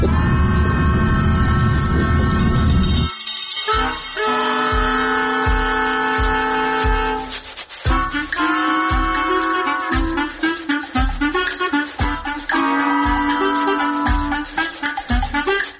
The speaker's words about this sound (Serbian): Stigla sam, izlazim iz voza u Mostaru